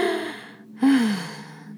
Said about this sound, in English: I need to just take a deep breath and just chill. Let's do that together. Let's take a deep breath.